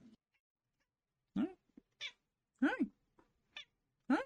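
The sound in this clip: A cat meows several times in short, rising-and-falling calls spaced about half a second to a second apart, fairly faint, with quiet gaps between them.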